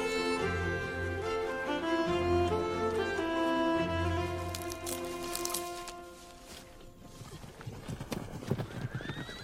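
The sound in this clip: Horse hooves clip-clop at a steady walk, joined by loud neighing and whinnying from the horse.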